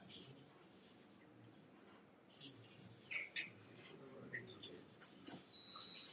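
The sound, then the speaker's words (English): Soft, scratchy pen strokes of handwriting come in short, irregular bursts. They are faint and quiet throughout. “Sorry if I write small.”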